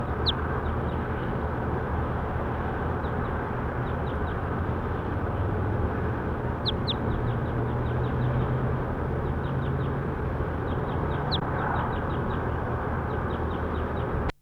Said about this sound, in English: Recording bird 7-1.